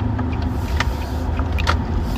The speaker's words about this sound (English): I'm going to drive around the school and park near the baseball diamond.